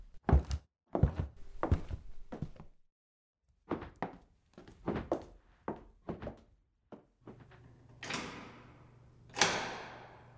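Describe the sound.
Footsteps going down a stairway from the third floor: many hard, irregular thumps and knocks in uneven clusters, with a short pause early on and a couple of longer noisy swells near the end.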